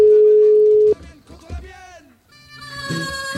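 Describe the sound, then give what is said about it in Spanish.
A telephone ringing tone on a call placed to a mobile number: one steady, even tone of about a second, followed by a short stretch of muffled voice-like sounds on the line. “Estamos intentando llamar otra vez al compañero que estuvo ayer en la movilización de Madrid. A ver si esta vez tenemos suerte y le localizamos.”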